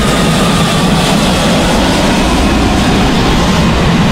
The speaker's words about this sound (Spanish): Ay, qué rico suena el avión.